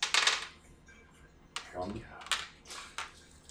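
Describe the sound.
Dice rattle and clatter during a tabletop role-playing game: a dense burst of clicks at the start, then several sharper knocks scattered over the following seconds, with a brief voice in between.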